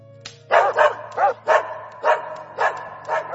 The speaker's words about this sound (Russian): вдруг обе собаки разом поднялись с судорожным лаем, ринулись прочь от огня и исчезли во мраке